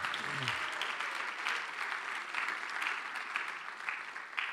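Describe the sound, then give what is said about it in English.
Steady, fairly soft applause from a church audience welcoming a recent program graduate to the stage, a dense patter of many hands that holds evenly for the whole stretch with no voices over it. “Give him a hand, please.”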